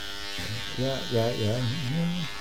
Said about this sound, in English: Hold on. Just want to, about ready to finish shaving here. I don't want to look unkempt for today's show